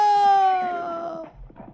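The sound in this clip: An injured horse lets out a single neigh, a loud, drawn-out whinny that slides steadily downward in pitch for about a second, then gives way to fainter low rustling.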